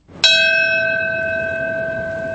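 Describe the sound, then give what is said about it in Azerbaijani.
A single bell tolls at a September 11 memorial ceremony, marking the moment of the attacks. One clear strike rings out from near silence, then a bright, pure tone lingers and fades only slowly. “Zəng səsi yerli vaxtla səhər saat 8:46-da 11 sentyabr hadisələrinin baş verdiyi vaxtda eşidildi.”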